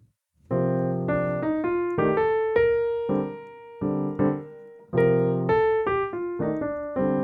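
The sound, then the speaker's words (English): An instrument plays ascending eighth-note scale runs over a 2-5-1 chord progression. Sustained chords sit under the melody notes as they step upward, in two phrases. “So it's going to sound like this, using scale motion supported by the 2-5-1 progression, ascending.”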